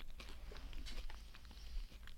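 Crispy tater tots fresh from the air fryer, crunchy outside and fluffy inside, are chewed in a quick run of faint, irregular crunches and soft mouth sounds, with no talking.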